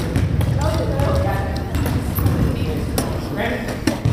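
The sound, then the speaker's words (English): A wheelchair basketball game: a ball bouncing repeatedly on the court amid rolling wheels and scattered squeaks, all under a constant murmur of voices. “Now, you may have heard an unusual sound in that game, one that you might not recognize as going along with basketball. You may have heard wheels. That's because these sounds come to us from a game of wheelchair basketball.”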